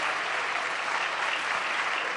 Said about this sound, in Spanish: Un aplauso para el equipo.